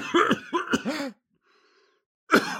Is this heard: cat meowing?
no

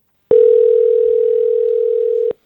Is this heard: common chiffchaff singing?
no

